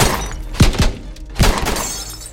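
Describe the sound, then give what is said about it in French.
Bullets strike a Ford's car body and shatter its windshield: three hard, sharp impacts with thunks and breaking glass, and a crackle of debris between them. “Les premières balles percutent la carrosserie et fracassent le pare-brise.”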